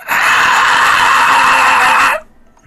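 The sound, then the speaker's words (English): A human voice imitates a shrill, piercing scream from worm-like creatures with beaks at the ends of four tendrils. The scream is loud and steady for about two seconds, then cuts off abruptly into near silence. “I don't like how they screamed, guys!”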